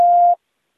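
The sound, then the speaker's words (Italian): A single short electronic beep on an automated phone line signals the start of a voice recording. The steady, mid-high tone lasts about a third of a second, then cuts to silence. “Parla dopo il segnale acustico.”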